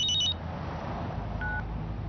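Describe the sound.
A telephone's electronic ring tone: a short burst of high, bright beeps at the very start, then one brief steady tone a little later, over a low, constant background hum.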